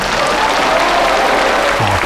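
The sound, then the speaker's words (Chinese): Audience applause welcomes a Chinese singer to the stage, a loud, dense wash of clapping that holds steady and unbroken throughout. “大家掌声欢迎。”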